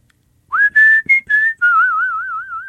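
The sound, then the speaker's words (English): Pucker whistling through puckered lips, performed solo: four short clear notes at shifting pitches, then a long held tone with a pronounced wavering vibrato. “What people are most often hearing is what we call pucker whistling. That's where the lips are puckered like, you're going to give a kiss.”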